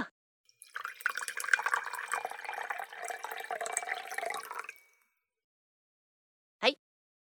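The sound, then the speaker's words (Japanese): Wine is poured into a glass with a steady, splashy liquid gurgle lasting a few seconds. It stops into silence, followed by one brief sharp knock near the end. “あれ、まだグラスにワイン残ってるじゃねえか。クイッといきな、クイッと。いい飲みっぷりだ。じゃ、もう一杯注いでやるからな。”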